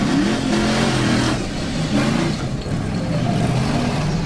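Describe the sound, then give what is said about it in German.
A fully fuelled off-road vehicle's engine drives along with a loud, steady drone. Its low harmonic tones waver slightly up and down throughout. “Die beiden Freunde warten am Flughafen, den vollgetankten Geländewagen startklar.”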